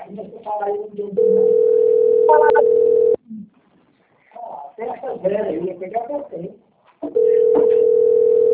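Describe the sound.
Telephone ringing tone during a call, with two long, steady, mid-pitched bursts. People talk around and over the tones.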